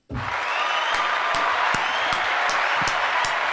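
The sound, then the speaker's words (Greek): Audience applause breaks out abruptly and holds at a steady, full level throughout, with sharper, louder claps cutting through at a roughly regular pace. “Νικόλα, ένα χειροκρότημα για τον Νικόλα.”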